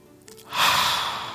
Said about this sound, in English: We get up in the morning and we take a deep breath.